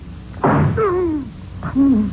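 Two sharp gunshot bursts, fired by a man at close range, land about a second apart. Each crack is followed by a wavering, ringing tone that slides downward.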